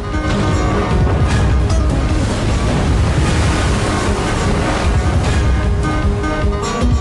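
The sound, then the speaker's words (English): A storm at sea around a huge sailing ship at night: waves and wind roar loudly and steadily throughout, with dense low rumbling surf and no clear breaks. “Nighttime. A huge sailing ship is out at sea. Van Helsing and Friar Carl stand at the prow of the ship, looking out at the storm.”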